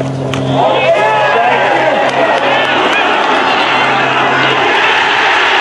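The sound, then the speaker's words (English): A crowd cheers after a golf shot, a loud, sustained roar that holds steady throughout while a voice talks over it. “No wonder they cheered.”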